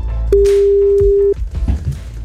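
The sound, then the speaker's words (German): A single steady telephone tone sounds loud and even for about a second as a radio station dials a listener, followed by faint rustling. “Wir wählen jetzt und wollen den nächsten überraschen von euch.”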